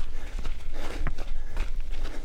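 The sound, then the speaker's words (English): Running footsteps on a desert path in Arizona, in December: a steady run of quick, rhythmic, dull thuds that continues throughout. “and we're going for a run. A run on a desert path near his house.”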